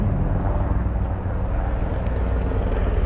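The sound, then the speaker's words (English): A military helicopter flying overhead makes a continuous, dense rotor roar that stays loud and steady throughout, with heavy low rumble and no breaks. “We've got a helicopter flying overhead. Oh shit, it's actually a military helicopter.”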